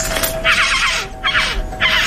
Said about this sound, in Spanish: Mira cómo suena el pergolero.